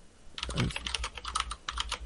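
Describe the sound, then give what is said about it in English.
Fast typing on a computer keyboard: a dense, rapid run of many crisp plastic key clicks with no pauses, fairly loud and alone with no voices. “this is hard to type all fast and shit.”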